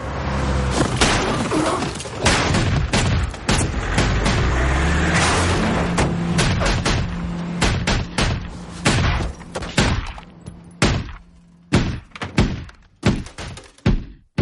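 Gunshots fired at a car as its door opens during a crime-thriller shootout: many sharp, loud bangs, packed densely over a sustained rumble early on, then separate cracks in an irregular series toward the end.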